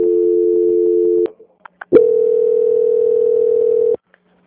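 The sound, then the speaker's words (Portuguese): A steady telephone line tone plays while a bank call is transferred: one continuous tone for just over a second, a few faint clicks, then a slightly higher steady tone for about two seconds before cutting off. “eu já vou transferir a ligação. Só um momentinho. Tá bom. Só um momentinho. Transferência.”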